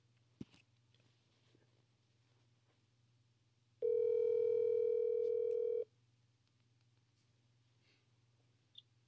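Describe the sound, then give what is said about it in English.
A phone line tone sounds as a group call is dialed out: one steady, even tone lasting about two seconds, with a couple of faint clicks before it and a low hum running underneath. “You guys want to want to have me dial them in? Give me just one second. I'm gonna do a group call.”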